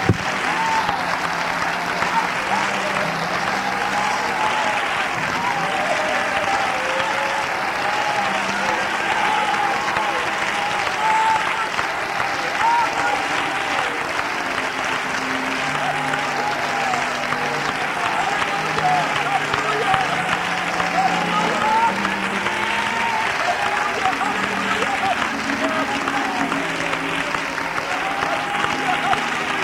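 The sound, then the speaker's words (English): Sustained standing ovation from a church audience during a worship service: loud, continuous clapping lasting the whole half minute, with voices and cheers mixed in. “Would you give him a standing ovation with all of your heart?”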